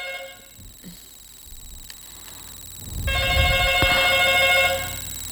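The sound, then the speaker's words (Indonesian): A telephone rings with a steady, repeating electronic tone over a low rumble. The ringing grows clearly louder about midway through, and nobody speaks over it. “Mbak Tri jawab sik telepon nge”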